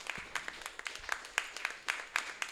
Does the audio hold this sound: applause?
yes

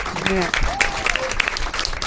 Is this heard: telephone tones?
no

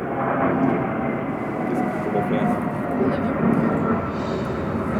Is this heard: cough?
no

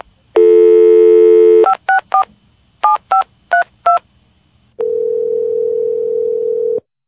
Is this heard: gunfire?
no

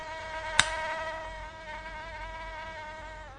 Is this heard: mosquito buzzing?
yes

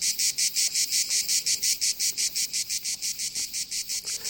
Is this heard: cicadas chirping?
yes

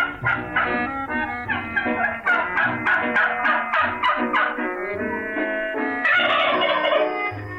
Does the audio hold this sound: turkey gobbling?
yes

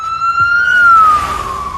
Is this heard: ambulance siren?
yes

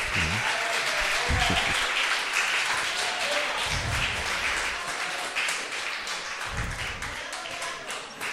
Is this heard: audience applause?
yes

